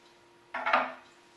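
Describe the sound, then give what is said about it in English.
A whisk scrapes and clatters against a bowl while cream is whisked into a pink mixture: one short burst of metallic scraping, about half a second long, against quiet. “And just keep mixing it really well. Now, you keep on whisking this for about 10 to 15 minutes.”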